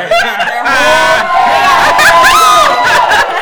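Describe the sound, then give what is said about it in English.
A small live audience laughs, whoops and chatters over one another, a loud, lively babble of overlapping voices with bright high calls. “Oh, we have a live studio audience.”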